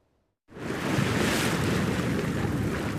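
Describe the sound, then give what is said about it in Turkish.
Rough Black Sea waves break on the shore at Karaburun, site of a wave-energy power plant. A loud, steady rushing roar begins abruptly after a brief silence and continues unbroken. “Karaburun'da kurulan projeyle Karadeniz'in hırçın dalgaları artık enerjiye dönüşüyor.”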